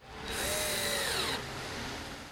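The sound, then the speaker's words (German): A power driver whirs as it screws a new election poster onto a wooden stand: one loud, high whine lasting about a second, its pitch sinking as the motor winds down, followed by quieter background noise. “Benjamin Ajay, Grünen-Landtagsabgeordneter aus dem Stimmkreis München-Mosach, schraubt gerade ein neues Plakat auf einen Holzständer”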